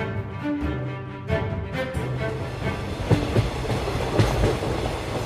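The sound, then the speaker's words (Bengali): A passenger train rolling along the rails after leaving a city station gives a steady, loud rumble with a rhythmic clickety-clack of wheels over rail joints. “Sealdah station থেকে রেলগাড়িতে যাত্রা শুরু হলো আমাদের। Station ছেড়ে রেলগাড়িটা কিছু দূর যাবার পরেই”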